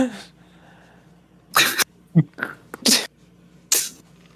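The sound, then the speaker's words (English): A snorting sound effect: a few sharp, airy nasal bursts, some short and some longer, with talking in the gaps between them. “insert a snorting sound right here”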